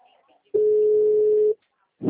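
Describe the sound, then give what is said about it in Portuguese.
A telephone tone after a dropped call: a single steady, pure hum lasting about a second that starts and stops abruptly, followed by a short burst of a voice. “a ligação ficou muda, acabou caindo”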